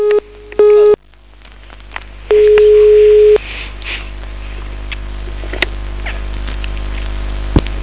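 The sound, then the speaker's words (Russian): Telephone line tones after a call drops: a short beep and then a longer steady mid-pitched tone, with gaps of faint line hiss and a few sharp clicks. “Алло, нас что-то разъединили.”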